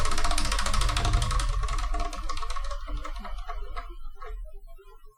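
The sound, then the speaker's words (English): A spun prize wheel ticks with a dense run of rapid, loud clicks that gradually thin out and fade toward the end. “So let's spin and see what we're going to review, shall we? I spun it so hard it shook the camera.”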